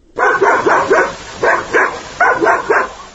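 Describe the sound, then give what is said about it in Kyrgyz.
A lone village dog barks near a newly closed border outpost. The sharp, loud barks come in three quick clusters with short pauses between them, and no voices are heard. “Аны ал айылга жакындаганда мына бул жалгыз ит үрүп тосуп чыкты.”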